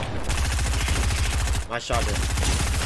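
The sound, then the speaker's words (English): Rapid automatic gunfire in a video game, a dense stream of many regular, loud shots with a brief dip midway before the firing resumes. “My shot did nothing.”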